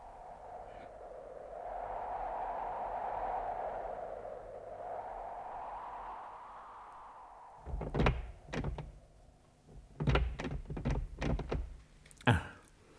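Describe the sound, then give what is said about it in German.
A locked temple door is tried and rattled: several heavy wooden thunks and knocks come in short uneven bursts after a long low hum, with no talking. “Ich dachte, wir könnten in diesem Tempel Schutz finden. Aber die Tür ist verschlossen.”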